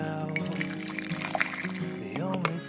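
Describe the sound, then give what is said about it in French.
Coffee pouring from a coffee maker, a soft, quiet trickle and splash of liquid that runs on steadily for a few seconds. “Il est 8h, votre café coule.”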